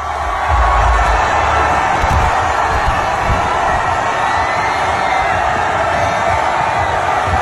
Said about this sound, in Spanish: Este es el sonido de la celebración del Arsenal hoy en Londres.